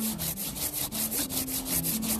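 Saw cutting through a felled lacquer tree, with many quick, regular back-and-forth strokes that each give a bright, rasping burst. The rhythm stays fast and steady, and no voices are heard.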